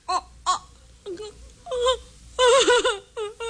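A woman crying and moaning, with several separate wailing, sobbing bursts of wavering pitch and uneven loudness.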